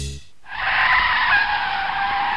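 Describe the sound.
A car's brakes screech and its tires skid in one long, loud, high-pitched squeal that starts after a short quiet moment and holds steady for about two seconds.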